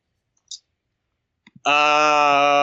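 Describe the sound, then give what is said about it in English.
Mouse clicks on a computer while cycling through a randomizer: a few soft, separate clicks, then a steady buzzing tone that holds to the end. “I'm still, I have to click through here.”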